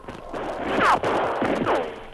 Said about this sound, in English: The shots were coming from behind the huge trunk of a fallen tree, well screened by bushes and shrubbery. The sergeant returned the fire.